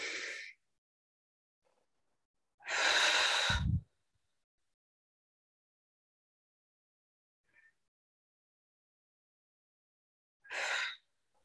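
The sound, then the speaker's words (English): Deep breathing, drawing air in through the nose and blowing it out through the mouth: a few loud, breathy rushes separated by long quiet gaps, with faint softer breaths between them. “we'll blow all the air out of our lungs. Take a big inhale through the nose. Open mouth, exhale. We'll do two more like that.”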